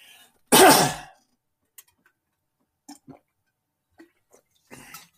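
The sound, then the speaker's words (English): One loud, rough throat clearing after a swig of water, followed by a few faint, scattered small clicks and mouth sounds in near silence. “I take a swig here of water, clear this throat, which I should have done before I started going over this stuff with you”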